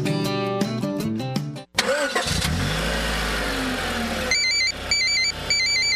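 A car engine cranks and starts after a short run of musical tones, then settles into a steady, loud engine rumble. Repeated high electronic beeps in a regular pattern sound over the running engine.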